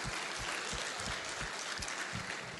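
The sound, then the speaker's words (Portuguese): An audience applauding during a service in a Methodist cathedral church: steady, dense clapping from many hands, continuous and fairly faint, with no voice over it. “Você pode aplaudir Jesus mais uma vez?”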